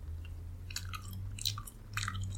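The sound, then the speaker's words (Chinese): Someone chews a slice of steamed, prepared rehmannia root, making a few soft, moist crunching bites in quick bursts over a faint steady hum. “那接下来我们可以把它拿一片来吃吃看。”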